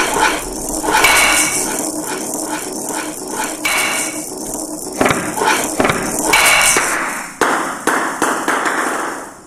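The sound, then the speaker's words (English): A table tennis video game produces sharp, hard clicks and knocks of ball and paddle as the ball is hit off the table. Many loud taps in an irregular rhythm ring over a bright, steady background noise. “You shot the ball out of the table. The points are now 2-1.”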